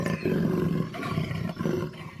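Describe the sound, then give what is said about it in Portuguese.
A jaguar roars in fury, a loud, harsh, sustained roar with a rough, grinding low growl that surges a couple of times, heard alone without any talk. “a onça passou da impaciência ao desespero e depois à fúria e esturrou.”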